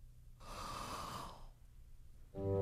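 One deep breath is drawn in as a long, breathy hiss of inhalation lasting about a second. Afterward the sound fades back to quiet. It is soft, with no talking over it.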